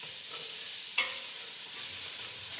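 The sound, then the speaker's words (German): Coarsely chopped carrots sizzle and fry in a pan as they are stirred, a steady bright crackle with one brief scrape of the spoon partway through; no one speaks. “Ich finde es auch ganz gut, das immer so ein bisschen anzurösten. Ich glaube, ich tue die Karotten schon mal auch mit dazu.”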